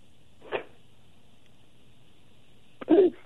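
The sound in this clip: Sneeze from a person: a short faint puff, then a louder, sharper burst a couple of seconds later, both brief against near silence.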